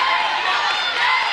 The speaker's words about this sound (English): The bench getting into it. That's the noise you're hearing.